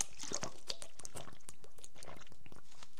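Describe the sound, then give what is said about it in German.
Soft wet mouth sounds of someone taking a sip of a drink: a dense run of small clicks and smacks that keeps going without pause, with no talking. “Ich trinke erstmal einen Schluck.”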